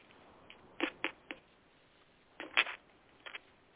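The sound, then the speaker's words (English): Soft papery rustles and flicks as a tarot card is drawn from the deck. Several short, quiet bursts come in two clusters with near silence between them, and nobody speaks. “But real quick, I'll just pick a card for you about love.”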